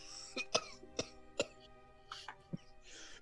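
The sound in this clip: A person deliberately putting on a cough: a series of short, sharp, fairly faint coughs and throat-clearing bursts in an irregular rhythm, with no talking.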